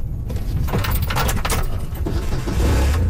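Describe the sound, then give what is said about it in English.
A quad bike pulls away across a ranch property toward a wetland. Its engine gives a loud, steady rumble mixed with broad rattling noise, swelling slightly near the end. “We hop in a quad and drive to a wetland on the property.”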